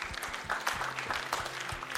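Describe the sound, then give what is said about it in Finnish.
An audience applauds Jesus during a worship service, an even wash of many hands clapping at moderate loudness, with a low steady tone beneath. “Annetaan he aplodeja Jeesukselle.”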